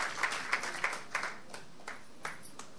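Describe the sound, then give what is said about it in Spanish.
A church audience applauds during a worship service with faint, even, rhythmic clapping. The claps are spaced in a steady beat throughout. “¿Le puede dar un aplauso al Señor en esta hora?”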